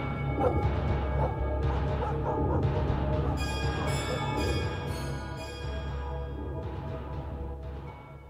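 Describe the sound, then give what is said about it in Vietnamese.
Several dogs bark noisily in a village at night, overlapping yelps and barks running continuously over a dense, rumbling background. “tiếng chó trong làng sủa lên inh ỏi”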